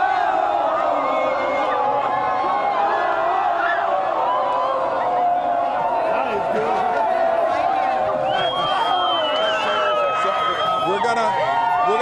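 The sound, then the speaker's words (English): Proud Astros fans cheering in the streets of Houston while officers lead them through, a dense crowd with continuous loud shouting, whooping and chanting voices that stays strong throughout. “these officers are leading a group of very proud Astros fans as they come through the streets. Let you listen to them.”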